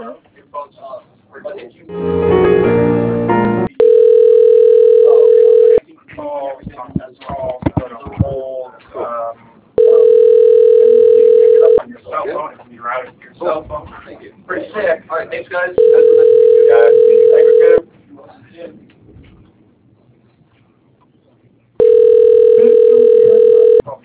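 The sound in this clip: A telephone ringback tone plays while a call is transferred: four steady mid-pitched tones, each about two seconds long and evenly spaced, with talk over the line between them.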